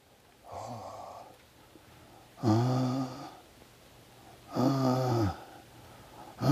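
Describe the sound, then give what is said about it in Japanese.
A voice imitates someone's heavy breathing in pitch darkness: three slow, drawn-out, raspy voiced breaths, evenly spaced and moderately loud, with quiet gaps between them. “息遣いが聞こえてるんですよね。初めは自分の息遣いかなと思ったんですが、どうもそうじゃない。”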